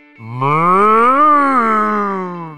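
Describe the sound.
A calf gives one long, loud moo that climbs gradually in pitch to a peak midway and then sags slightly as it fades.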